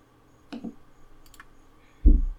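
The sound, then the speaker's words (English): A playing card flipped over during a card game: a faint papery tick, then after a short pause a louder, dull slap as it lands, with no talk. “And I'll flip my card.”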